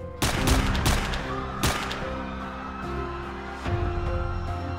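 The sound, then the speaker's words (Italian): A few sharp gunshots ring out in a reconstruction of a man being shot in the back after signing an autograph. The cracks burst over a steady low tonal hum, with uneven gaps between them. “Poi, quando ormai gli dà le spalle, esplodono 4 colpi.”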